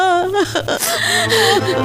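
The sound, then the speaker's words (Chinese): A woman crying, a sobbing voice with wavering, catching pitch and gasping breaths, loud and continuous throughout. “好了，妈妈，别哭，别哭，我回来了。”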